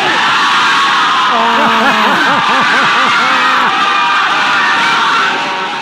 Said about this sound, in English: When you hear the family and the party that goes on in the background, man, that's always the best.